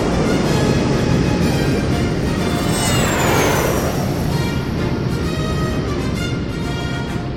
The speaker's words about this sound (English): What the hell was that? That's a thrust lifter.